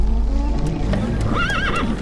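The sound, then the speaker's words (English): A horse gives a loud, wavering whinny near the end, over a steady clip-clop of hooves and a constant low rumble. “We'll drag it behind the horses.”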